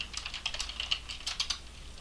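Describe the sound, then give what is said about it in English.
Quick clicking of keys as a message is typed on a computer keyboard, with many irregular light taps at a quiet, even level and no voices. “should we type a message to him? I don't know. I was going to type that out, but like, I didn't quite know how to.”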